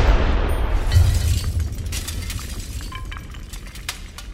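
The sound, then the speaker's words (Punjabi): A loud explosion outside a house opens with a heavy, low boom, followed by scattered glassy clinks and rattling debris as the blast slowly fades, with no voices. “ਇੰਨੀ ਦੇਰ 'ਚ ਘਰ ਦੇ ਬਾਹਰ ਇੱਕ ਜ਼ੋਰ ਦੀ ਧਮਾਕੇ ਦੀ ਆਵਾਜ਼ ਆਈ”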